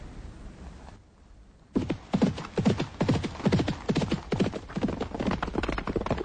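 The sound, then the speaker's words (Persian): Hoofbeats of a horse led by the reins by its rider walking on foot. After a short quiet stretch, a regular clip-clop of many steps follows at an even walking rhythm, with no voices. “عبدالله در حال رفتن از اسب پیاده شده و افسار به دست و افتان و خیزان در حال رفتن است.”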